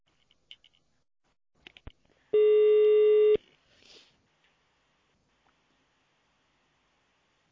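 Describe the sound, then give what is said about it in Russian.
A single telephone keypad tone on a company's automated phone line, heard as one steady buzzy beep of about a second, preceded by a few faint clicks. “Пожалуйста, наберите внутренний номер абонента.”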